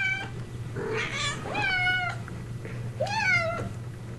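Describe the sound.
A domestic cat meows a few times, drawn-out nasal cries with a wavering tone, heard alone over a steady low hum.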